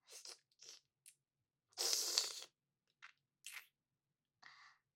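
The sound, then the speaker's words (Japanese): Biting into food with crisp skin gives faint, crisp crunches: a few short snaps, then one longer tearing crunch in the middle and more brief crackles afterward, each separated by silence. “ちゃんと舐め取ってから、一口かじって食べさせてあげますね”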